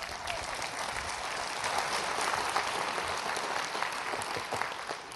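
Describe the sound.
Warm applause from an audience welcoming a speaker at a morning gathering: a steady wash of many hands clapping, holding at an even level for about five seconds.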